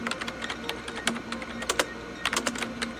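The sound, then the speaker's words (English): Fingers type on a computer keyboard, a quick, uneven run of many light clicking keystrokes with brief pauses between bursts. The tapping is fairly quiet, with a faint steady hum underneath. “Type in Andromeda Radio Wave Study.”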